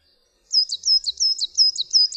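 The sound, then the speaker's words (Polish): Coal tit song: a rapid, high-pitched run of identical two-note phrases repeated evenly, clear and bright against silence. “Jej śpiew brzmi niczym odtwarzany w przyspieszonym tempie głos bogatki.”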